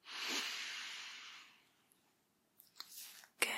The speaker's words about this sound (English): put your hand or your finger over your left nostril and close it for me and take a big deep breath in through your right nostril